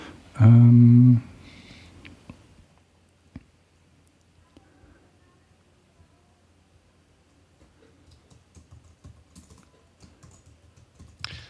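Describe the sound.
Typing on a computer keyboard: faint, sparse keystroke clicks scattered over a long quiet stretch, after a short loud low tone at the very start.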